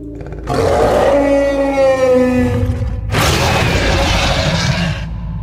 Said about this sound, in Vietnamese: Đây là lần đầu tiên hắn nghe thấy tiếng kêu của con giao long. Hơi giống tiếng trâu giống, nhưng trầm thấp hơn tiếng trâu